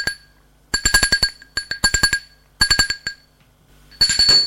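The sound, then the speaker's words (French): Doorbell ringing at a front door: bright, metallic, rapid-fire strikes come in several separate bursts with short silent gaps between them, with no voices. “on a sonné à sa porte.”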